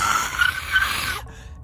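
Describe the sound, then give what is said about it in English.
A voice imitates an eldritch skeleton's screech during a tabletop role-playing game: a raspy, hissing, high shriek that holds steadily for about a second, then cuts off abruptly into near silence. “As you take out your dagger, this skeleton, you hear this sort of like eldritch screech.”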